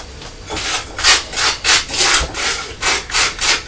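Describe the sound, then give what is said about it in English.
A knife scrapes butter onto a piece of toast in many rhythmic rasping strokes, each a brief, dry, gritty swell, repeating steadily without talk. “Right, Mummy better butter and put some marmalade on her piece of toast.”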